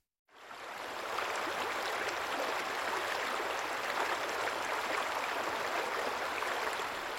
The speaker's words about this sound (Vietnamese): Dòng nước thượng lưu, trung lưu và hạ lưu đều trong văng vắt, chảy róc rách bên tai.